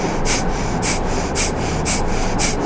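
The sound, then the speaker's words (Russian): Rhythmic breathing through the left nostril with the right one closed, during a kriya yoga warm-up: five evenly spaced, airy nasal breaths, each a short hissing burst. “Правую ноздрю закрыли, левой дышим, продолжаем.”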